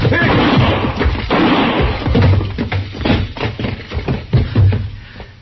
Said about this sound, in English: Don't shoot again, Chester.